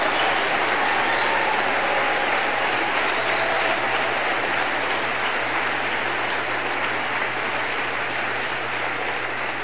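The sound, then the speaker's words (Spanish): A church audience applauds during a sermon, a dense, steady wash of clapping that runs unbroken through the whole clip, loud and even with no speech over it. “Un aplauso para ver si estás de acuerdo.”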